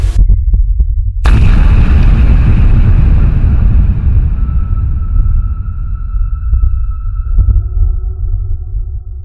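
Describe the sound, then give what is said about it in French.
A heavy explosion as a blast lifts the 2000-tonne upper slab of a nuclear reactor after its fuel channel tubes rupture: a sudden loud burst over a deep, continuous rumble, followed by lingering ringing tones that slowly fade. “Une déflagration soulève la dalle supérieure du réacteur, celle-ci pèse 2000 tonnes.”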